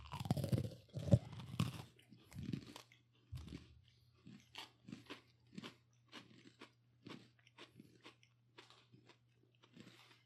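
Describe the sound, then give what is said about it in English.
Crunching and chewing of a strawberry-icing-flavoured Oreo cookie: loud crisp crunches in the first few seconds give way to many softer, irregular chewing bursts over a steady low hum. “All right, we're going to eat this cookie. 3, 2, 1.”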